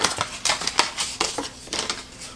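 Cutting open the packaging of a spatula-and-tongs kitchen utensil: a quick run of sharp clicks, snips and plastic scrapes over a couple of seconds, with no voices.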